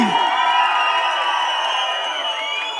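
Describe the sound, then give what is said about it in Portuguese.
Crowd cheering and shouting at a live show: a dense, loud roar of whoops and yells that holds steady throughout and eases slightly toward the end. “Quem gostou, faz barulho aí!”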